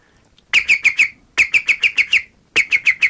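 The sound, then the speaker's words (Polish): A man whistles an imitation of a green woodpecker call: three loud runs of rapid, ringing, laughing notes separated by short pauses. “Więc naśladuję niektóre ptaki. Najbardziej udaje mi się dzięcioł zielony.”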